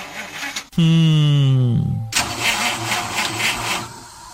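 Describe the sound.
A car engine starting: a loud whining crank slides downward in pitch, then the engine catches into a rough, steady running roar that continues to the end.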